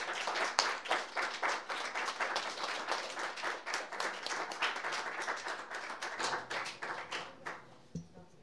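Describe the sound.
An audience applauding to welcome two performers as they come up: dense, loud, steady clapping from many hands that thins out and stops near the end.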